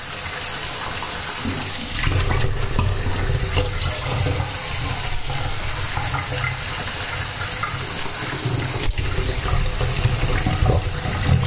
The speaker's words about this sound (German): So, jetzt werden wir erstmal die Schüsseln ein bisschen einweichen.